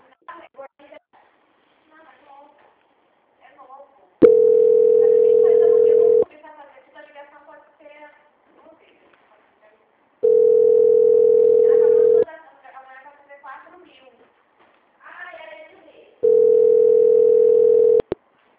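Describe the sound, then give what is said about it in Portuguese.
Steady telephone line tones sound while a call is being transferred: three long beeps of about two seconds each, repeating roughly every six seconds, with people talking on the line between them. “Aguarda na linha que eu vou transferir a ligação, tá bom?”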